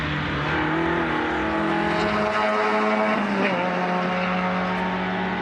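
Engine of a front-wheel-drive car accelerating while driven, a loud continuous drone with steady pitch and a brief shift in pitch partway through, with no talk over it.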